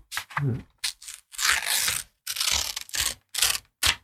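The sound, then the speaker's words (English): Paper tearing as a golden envelope is ripped open, with several sharp, loud rips in quick succession separated by brief pauses. “I'm going to open the golden envelope here.”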